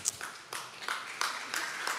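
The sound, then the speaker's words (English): A lone audience member claps during a church sermon, giving a steady series of sharp, bright claps at an even pace, fairly faint and with no crowd joining in. “if you're going to clap, go. One person really liked it.”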